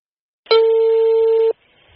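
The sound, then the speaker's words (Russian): A telephone ringback tone on a call to a gardener: one steady, mid-pitched beep lasting about a second, heard alone, then a faint line hiss. “Связалась с ними по телефону. Давайте предварим нашу беседу одним таким звонком.”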